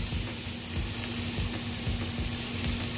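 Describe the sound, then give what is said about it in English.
Food sizzling while frying, a continuous dense crackle that stays even and fairly faint throughout, with a steady low hum underneath and no talk. “You can hear that sizzling right now. That sounds good.”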